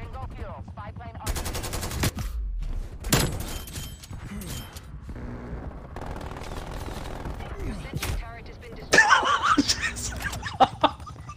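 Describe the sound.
Gunfire from a gun in a video game: a few sharp bursts of shots, some rapid and machine-gun-like, cut through ongoing game sound while players talk and laugh.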